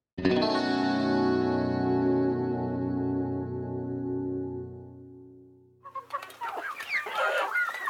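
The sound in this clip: Chickens clucking on a poultry farm, lively overlapping clucks in the last two seconds, coming in after a long sustained musical tone that slowly fades out.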